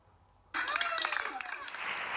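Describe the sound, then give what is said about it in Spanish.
Audience applause bursts in abruptly after a brief quiet moment, then carries on as a steady, fairly loud wash of clapping with voices rising over it. “¡Un aplauso para él!”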